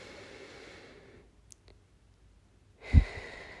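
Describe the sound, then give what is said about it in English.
A deep breath in during a guided breathing exercise, heard as a soft, airy rush that fades into near silence, then a second breathy swell ending with a low thump. “So let's go ahead and just take a deep breath in”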